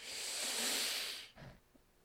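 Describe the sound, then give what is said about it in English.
A long, steady inhaled breath during a guided breathing exercise with the spine held straight: a soft, airy hiss lasting over a second, followed by quieter, faint sounds. “Now inhales, spine straight.”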